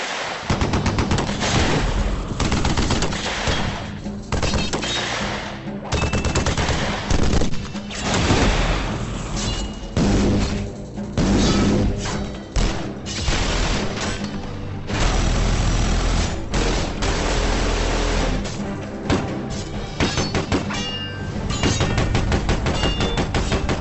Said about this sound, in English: And I think what you do is you start pumping away with your guns, your swords, your flamethrowers, everything. All out carnage.